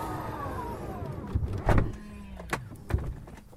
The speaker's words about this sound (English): That noise you're hearing is the door closing.